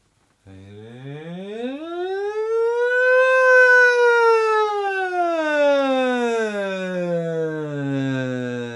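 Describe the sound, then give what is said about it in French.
A voice imitates a siren with one long unbroken glide that rises smoothly in pitch, peaks, then slowly sinks again, loud and sustained for about eight seconds. “On monte et on descend. Glissade vers le haut, glissade vers le bas. On appelle ça la sirène en fait.”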